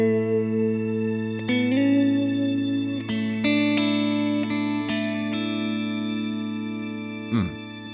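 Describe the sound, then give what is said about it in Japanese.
Electric guitar with a shimmer reverb effect and light overdrive, played as sustained chords. The notes change every second or so, and a bright, shimmering wash rings on above them. The wash is steady and fairly loud, with no talk. “で、その中に島リバーブっていうのがあって、 最近ね、これ使っていろいろ遊んでて、 弾き語りをしたりとか、 するときにすごく、 雰囲気が出ていいエフェクトだなと思ってるんで、 ちょっと紹介しようかと思います。こんな音がします。”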